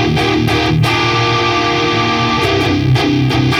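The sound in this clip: Electric guitar through a phase-reversed Axolotl pedal alongside a Klon pedal gives a gritty, overdriven tone, with many quick strums at the start and end framing a sustained ringing chord in the middle.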